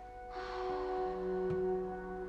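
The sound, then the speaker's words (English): A deep breath in through the nose and out through an open mouth makes a soft, airy hiss that swells and lingers over a faint steady hum. “So we'll take a deep breath in, close the lips, inhale through the nose, and then open mouth, exhale, release.”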